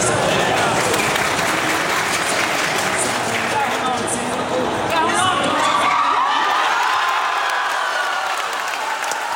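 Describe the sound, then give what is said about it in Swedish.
A crowd in Harplinge church cheers, claps and whoops as Sweden score their 2-0 goal in their World Cup opener. The loud, continuous roar of applause and shouting eases slightly toward the end. “Men vi kan väl höra då när nog glädjen var som störst i Harplinge kyrka vid 2-0-målet.”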